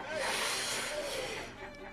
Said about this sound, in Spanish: Enciéndeme el cigarrillo, buen mozo.